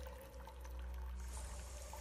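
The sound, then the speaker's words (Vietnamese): Faint, steady trickle of blood running from a cut wrist down into a bowl placed below, a soft continuous pouring of liquid with no other sounds. “Máu theo cổ tay bắt đầu chảy xuống cái bát được đặt ở bên dưới.”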